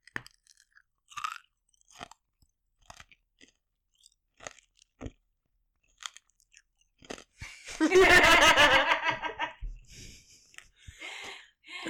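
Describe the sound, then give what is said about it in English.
Chewing and crunching of a Blow Pop lollipop: a few sparse faint clicks and bites, then a loud, dense burst of crunching that fades into softer chewing. “Blow pop ASMR.”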